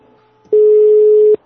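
A single telephone busy-tone beep sounds after a call to an emergency line cuts off. It is a loud, steady, mid-pitched pure note lasting under a second, with quiet background before and after it.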